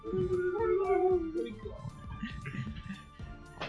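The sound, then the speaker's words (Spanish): A drawn-out dog howl holds a steady, mid-low pitch for over a second, then gives way to a busier stretch of softer, broken sounds. “Saluda, perro.”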